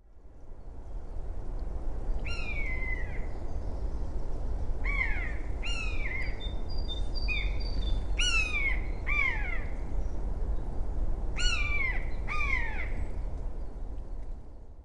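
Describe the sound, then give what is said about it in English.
Common buzzard giving its mewing kew call in hilly farmland: several high, plaintive cries, each sliding sharply downward, some in quick pairs, ringing out clearly over a steady background hiss. “The buzzard's mewing "kew" is a familiar sound in hilly country and farmland in Britain as it soars effortlessly, rising on a thermal of warm air.”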